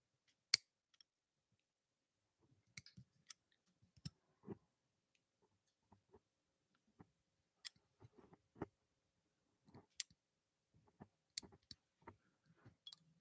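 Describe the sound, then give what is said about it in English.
Calluses are cut off skin in quiet, sharp snipping clicks, many of them scattered irregularly across long stretches of near silence. “This is the sound of me cutting calluses off.”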